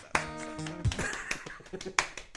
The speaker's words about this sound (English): Hey, come on, clap in time. Yeah, clap on the right notes.